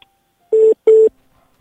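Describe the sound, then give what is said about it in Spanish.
Two loud, steady electronic telephone dialing tones, each about a fifth of a second long, are separated by a short gap over near silence, as a call comes in during a live call-in show. “nos están llamando de nuevo, pero no nos escucha. A ver si vamos a intentar ver. Es que parece que nos están llamando por teléfono”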